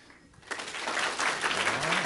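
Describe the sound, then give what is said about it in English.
Audience applause rehearsed as a cue at a presentation session: after a brief quiet start, clapping erupts into a dense, steady clatter that stays loud to the end. “Let's try it one more time because I think you guys can applaud a little bit better than that.”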